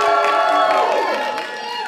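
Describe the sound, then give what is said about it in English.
A crowd cheers and shouts to welcome a moderator at a live discussion on fashion inclusivity. The loud burst of voices fades slightly toward the end. “Give a round of applause, ladies and gentlemen.”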